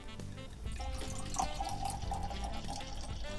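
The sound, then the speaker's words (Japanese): Koshu dry white wine, a 2022 vintage from Château Sakaori Winery, is poured into a glass with a soft, quiet, continuous liquid gurgle. “はい、早速注いでみましょう。”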